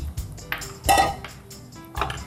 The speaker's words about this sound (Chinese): 把它搅拌一下。